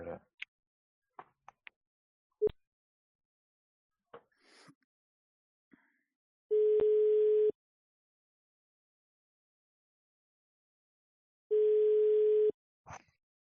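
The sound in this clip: A telephone line tone sounds while a call is dialed: a few soft clicks, then two steady mid-pitched beeps, each about a second long, separated by a several-second silence.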